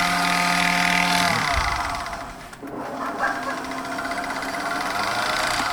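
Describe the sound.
Motorized pasta machine spinning, a steady mechanical whirring hum that dips briefly midway before the drone resumes.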